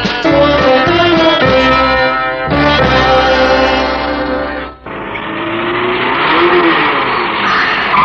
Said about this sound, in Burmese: ကားကိုဖြည်းဖြည်းမောင်းပြီးသွားနော်သမီးလေ